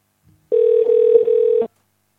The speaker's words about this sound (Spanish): ¿Estás preparado para la primera llamada? Venga, pues vamos a... la primera llamada.